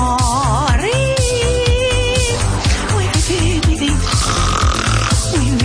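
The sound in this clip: Loud snoring with wavering, pitched rasps and snorts that slide up and down over a steady rhythmic beat.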